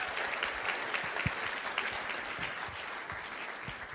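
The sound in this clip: A church audience applauds as a pastor is welcomed onto the stage. The clapping is steady and dense, with a few louder claps standing out, and no voices come through.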